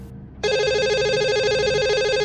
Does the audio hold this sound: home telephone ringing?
yes